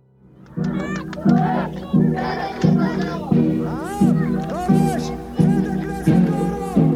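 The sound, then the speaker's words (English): Protesters in Tel Aviv chant together, voices rising in short, strongly voiced phrases that repeat in a steady, regular beat, each phrase surging and then fading before the next. “What you're hearing is a crowd of protesters in Tel Aviv. Unlike most protests in Israel, this one isn't about politics. It's about a verdict in a murder case that happened 15 years ago.”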